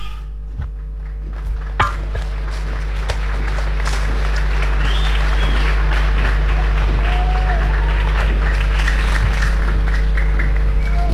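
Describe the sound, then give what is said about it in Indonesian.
Audience applause at a flag-lowering ceremony: dense clapping that builds over the first two seconds, then holds at a steady, full level over a constant background hum. “Disambut dengan tepukan tangan dari hadirin yang hadir mengikuti jalannya upacara penurunan bendera”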